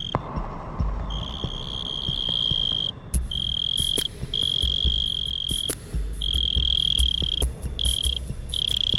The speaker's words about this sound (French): une chronique sur le monde sonore animal. Aujourd'hui, la courtilière.